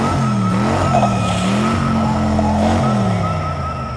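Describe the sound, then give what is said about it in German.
A fast car's engine revs in a loud, steady drone, its buzzy harmonic tone wavering up and down in pitch while holding strong throughout, easing slightly at the end. “Wow, vroom vroom. Klingt nach einer geilen Karre, ne?”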